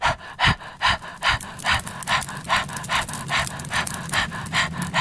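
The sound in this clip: Rapid forced breathing of the yoga fire-breath exercise: many quick, even, breathy exhalations at a steady pace of two or three per second, heard alone without talk.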